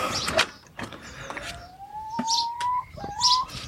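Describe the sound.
Garden birds chirp around a mealworm feeding spot: bursts of short, high, bright chirps with a thin whistled note that rises slowly and holds, all fairly quiet with no voices.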